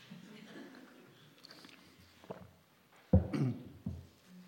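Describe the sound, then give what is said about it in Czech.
A person takes a sip of a drink: a short, fairly loud burst of sipping and swallowing noise breaks a quiet stretch, then fades within about a second. No one talks. “Aby to Eliško nanesla nadarmo, tak se teda napiju.”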